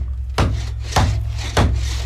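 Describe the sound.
Wood is sawn by hand in three rasping strokes at an even pace, each beginning with a sharp bite, over a steady low hum.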